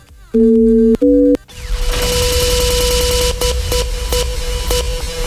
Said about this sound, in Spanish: ¿lista para marcar 929, mi amor?